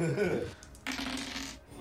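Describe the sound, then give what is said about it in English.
Dice being rolled for a tabletop game: a short burst of rattling clatter lasting under a second, sharper and brighter than the quieter talk and rustle before it. “Oh, I rolled a 3. It's plus 5.”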